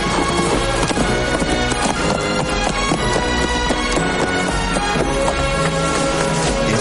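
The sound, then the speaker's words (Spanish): Hoofbeats of a horse trotting through tall cereal crops in a Western, a rapid, steady clip-clop that continues throughout within a dense, loud wash of sound. “pero el hombre a caballo le sigue, oteando sobre los altos cereales. Toma la dirección que cogió el joven y cabalga rápidamente en su búsqueda.”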